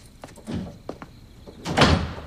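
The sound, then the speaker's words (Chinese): A door closing: a few faint knocks and shuffles, then one louder, dull thud as the door shuts near the end. “门关上。”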